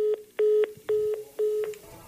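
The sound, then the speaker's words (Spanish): Telephone tone after a dropped call: four evenly spaced, steady mid-pitched beeps, the first one clipped short, with brief silences between them. “Se le cayó la llamada”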